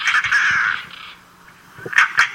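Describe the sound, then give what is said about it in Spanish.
Harsh, grating calls of a European roller on the La Mancha plain: one long rasping, rattle-like call at the start, a quiet gap, then a couple of shorter harsh bursts near the end. “Y aquí escuchamos su cántico, el porqué de Carraca, ¿no? Porque se asemeja a este instrumento que se...”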